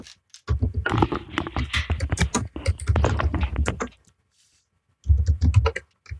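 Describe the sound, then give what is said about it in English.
Rapid, forceful typing on a computer keyboard: a dense run of clicking keystrokes for several seconds, a brief pause, then another quick burst of keys. “pounds away at his keyboard”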